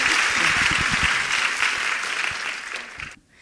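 Audience applause welcoming a poet: dense, steady clapping from a crowd holds for about three seconds, then fades and drops away abruptly near the end.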